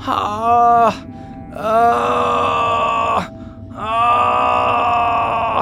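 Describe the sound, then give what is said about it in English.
Long, drawn-out moaning carries from across a walking path that leads to a group of stumps: three sustained voiced moans with short gaps between them, the first sagging in pitch as it ends. “You also hear from across like the walking path that people would take to get to the different stumps, you hear moaning.”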